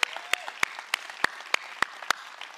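Sharp hand claps from a church audience welcoming a new children's director: about eight crisp, fairly faint claps in a steady, evenly spaced rhythm.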